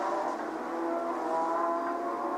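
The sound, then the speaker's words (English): Porsche flat-six race cars at a Porsche Club China race meeting in Zhuhai give off a steady, fairly faint engine drone. The tonal mid-range hum holds level throughout without a distinct pass-by. “And there's an awful lot of flat sixes here at Zhuhai this weekend. It is a Porsche Files delight.”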